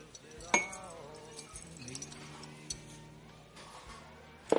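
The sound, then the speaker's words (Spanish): A spoon clinks against a coffee cup while sugar is stirred in, a few faint, sharp metallic clinks against a quiet background. “Coge una cuchara y lo remueve.”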